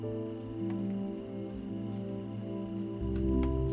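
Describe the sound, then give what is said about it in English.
Raindrops patter softly in a faint, steady rain beneath a sustained low musical drone, growing slightly louder toward the end. “the raindrops become just a little louder. Creating a calming orchestra of sounds.”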